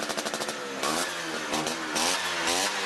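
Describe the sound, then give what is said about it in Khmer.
An Ape three-wheeler's small engine revs with a loud, buzzing drone during a fans' parade through the Tuscan countryside celebrating more than 70 years of the vehicle's production. The pitch swells and dips as the throttle opens and eases. “អ្នកគាំទ្រ Ape អបអរគម្រប់ខួបនៃការផលិតជាង70ឆ្នាំពួកគេជិះដង្ហែក្បួនកាត់តាមតំបន់ Tuscan”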